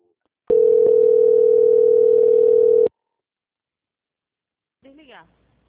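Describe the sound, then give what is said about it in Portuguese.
A telephone call transfer tone during a bank call: one loud, steady, mid-pitched beep lasting over two seconds, then silence and a brief snatch of voice near the end. “Um momento, por gentileza. Transferência.”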